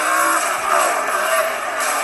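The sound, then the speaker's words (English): Race cars at a NASCAR race testing their pit road speed make a steady, loud engine roar that holds without a break, with slight swells in level throughout. “Cars, I think, testing out their pit road speed.”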